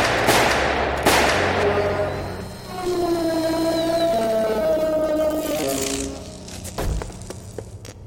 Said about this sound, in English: I aimed straight for the neck and fired.